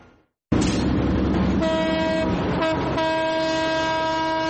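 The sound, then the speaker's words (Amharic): Loud rumbling of an old train leaving a station at dawn on a century-old French-built Ethiopian railway line, joined by a long, steady, sustained horn blast that shifts tone partway through. “ባቡር ከድሬዳዋ ጣቢያ ከፍተኛ ድምጽ እያሰማ ይወጣና በንጋት ጨለማ ውስጥ ይሰወራል።”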